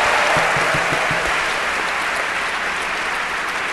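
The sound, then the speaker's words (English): Studio audience applause welcoming a guest on a comedy quiz show: a dense, steady wash of many hands clapping that holds level for nearly four seconds, with a few low thumps early on. “The last time I got applause like this, I was announcing my retirement.”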